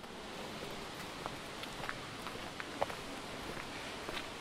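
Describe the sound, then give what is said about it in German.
Footsteps crunch along a gravel path beside one of the smaller Plitvice lakes, a soft, even series of steps set against a constant hiss. “Wir laufen jetzt gerade hier direkt an einem der kleineren Plitvicher Seen vorbei. Das ist ein Kiesweg”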